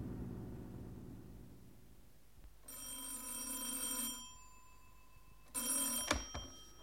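A telephone rings at a car repair garage in two bright, buzzing bursts, the second cut short by a clunk as the receiver is picked up.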